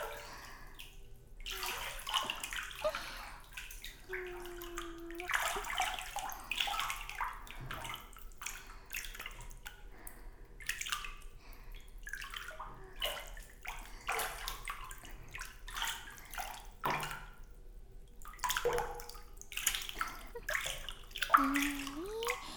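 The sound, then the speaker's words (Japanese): Hot running water rinses hair thoroughly so no fine bits are left, a steady hissing spray with shifting splashes that runs the whole clip at moderate level. “細かいのが残らないように。丹念にお湯で流しますね。”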